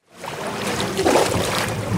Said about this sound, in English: On the Suchiate River that runs between Mexico and Guatemala, dozens of rafts made of large inflatable rubber tires with wooden planks on top ferry riders across, hoping to avoid the official border checkpoint downstream.